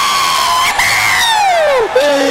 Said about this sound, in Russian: Йоганн Себастьян Бах, маэстро аплодисменты!